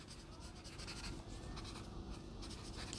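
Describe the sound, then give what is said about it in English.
Pen writing on paper gives a soft, continuous scratching that runs steadily through the whole stretch, faint and even, with no clear pauses. “As you hear me writing it down.”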